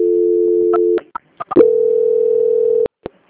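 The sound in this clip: A telephone line tone plays during a bank call transfer: a steady tone, a few sharp clicks, then a second steady tone at a slightly higher pitch, which cuts off into more clicks.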